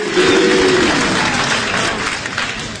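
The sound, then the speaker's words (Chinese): Audience applause at a crosstalk comedy performance, a dense, loud, steady wash of clapping from a crowd that carries through the whole stretch and eases slightly toward the end, with no talk over it. “谢谢朋友们， 谢谢大家伙的掌声鼓励。”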